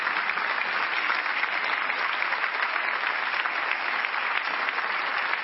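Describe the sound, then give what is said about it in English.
An audience applauds to welcome a bishop at a Thanksgiving Sunday church service, with even, dense clapping that stays at a constant level throughout. “Put your hands together and welcome the man of God.”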